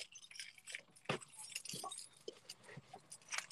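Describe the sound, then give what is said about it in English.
Car keys jangle and clink inside a truck in a steady run of bright, metallic rattles and chinks, with a few louder bursts. The jangling is faint, and no one speaks. “I think there might be a ghost rattling chains behind me. Yeah. Oh, those are actually my car keys. I was going to say, no way, it's car keys.”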